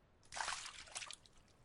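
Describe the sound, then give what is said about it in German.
Water sloshing gently around people, a soft, breathy swish that swells and ebbs in a few faint waves, with no voices. “Das Wasser um uns schwappt so sanft.”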